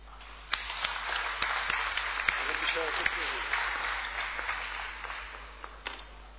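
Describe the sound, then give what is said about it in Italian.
An audience at a civic ceremony applauds a Ladispoli youth football squad, runners-up for the Italian title. Scattered, distinct claps ring out at an uneven pace, with a voice briefly audible partway through. “Vorrei un bel applauso, insomma.”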